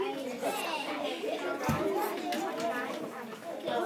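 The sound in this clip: Children play and chatter with overlapping young voices, a busy, steady babble of shouts and talk at a moderate level.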